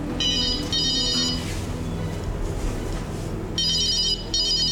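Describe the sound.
A telephone rings in two pairs of bright, buzzing bursts with a pause between the pairs, over steady low background noise.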